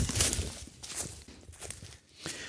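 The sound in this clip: Footsteps of someone walking cross-country uphill through a forest, a few irregular footfalls on the forest floor at moderate loudness, with no voices.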